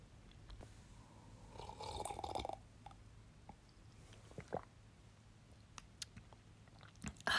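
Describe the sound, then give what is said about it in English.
A big slurping sip of hot peppermint tea stands out briefly near the middle, surrounded by quiet pauses and faint small mouth and breath sounds. “I'm gonna take a big sip of that and then take a deep breath with you guys.”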